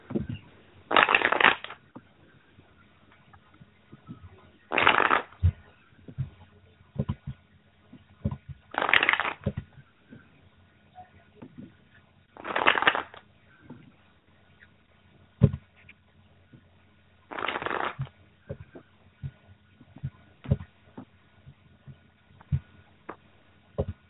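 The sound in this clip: Tarot cards being shuffled in several short, crisp riffling bursts with pauses between them and faint handling noises in the gaps.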